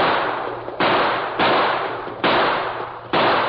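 Gunshots ring out in a radio drama, a few loud, abrupt reports, each striking suddenly and trailing off in a long, dull fading tail.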